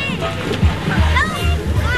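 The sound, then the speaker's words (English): Water splashes and sloshes as kids and families play in a swimming pool during a summer heat wave, with children's voices and chatter running under the irregular splashing. “At Cordelia Pool this afternoon, kids and families were splashing in the cool water”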